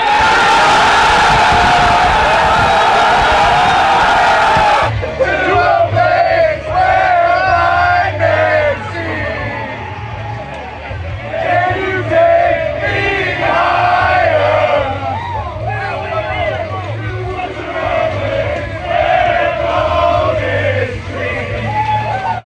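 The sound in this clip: A team sings and cheers loudly together in a locker room after a world championship win in Texas, with champagne and beer flowing. A roaring burst of cheers opens, then many voices sing in unison over a steady low beat, with shouts throughout.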